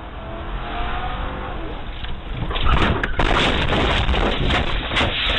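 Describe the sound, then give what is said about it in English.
A police vehicle rams a fleeing armed suspect's car in Marana, Arizona, caught on dash cam. A steady engine roar gives way to a sudden loud impact, followed by heavier, continuous rumbling and crunching noise. “Marana, Arizona police have released dramatic dash cam video of a police vehicle ramming a fleeing armed suspect.”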